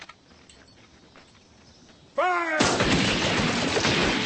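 An artillery round being fired: after a quiet, low background, a sudden loud blast erupts with a brief descending whine, followed by a heavy, sustained rumbling roar to the end.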